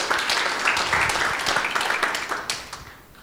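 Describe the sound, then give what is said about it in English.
Applause greets a woman coming up to give her testimony at a church service, a dense patter of many hands clapping that holds steady and then thins and fades toward the end. “Let's give her a welcome round.”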